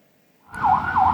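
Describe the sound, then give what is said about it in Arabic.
An ambulance siren in the streets of Sidon, southern Lebanon, sets in after a short quiet moment and wails steadily at a high pitch, with no voices. “في شوارع صيدا جنوبية لبنان لا تهدأ صفارات الإسعاف ولا تتوقف فرق الإنقاذ عن التنقل بين مواقع الاستهداف.”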